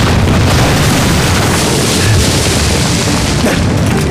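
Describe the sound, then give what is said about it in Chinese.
An artillery barrage explodes on a battlefield ridge, a loud, dense, continuous roar of overlapping blasts and rumble with no separate booms standing out, sustained throughout. “炮火三道梁子， 开炮！ 参与射击。”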